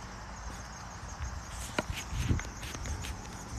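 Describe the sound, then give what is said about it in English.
Footsteps of a person walking outdoors, a steady run of scuffing steps over constant background noise, with a couple of slightly heavier footfalls in the middle. “But he's on the bike. I'm the one that's walking.”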